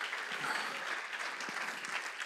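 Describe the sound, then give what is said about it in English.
Audience applause for military spouses near an Air Force base, a steady dense clapping that holds at an even level for the whole two seconds with no voices rising above it. “Travis Air Force Base, we honor, and we should honor, and we should, clap maybe for our military spouses. Can we go ahead and do that, right?”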